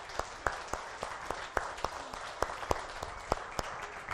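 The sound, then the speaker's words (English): Applause welcomes a new member to the group: sparse, distinct hand claps, many in an irregular patter, sounding like a small audience clapping rather than a full crowd. “So there you go. Give him a hand. Welcome.”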